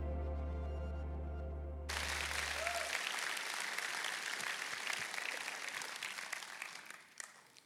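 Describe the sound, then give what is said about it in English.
Church audience at Beltway Park clapping to welcome a guest speaker: applause swells in over a low sustained tone that cuts off, holds as a dense, even patter, then dies away at the end. “Would you put your hands together? Would you give him a shout? And let's welcome Dr. Don Finto to Beltway Park today.”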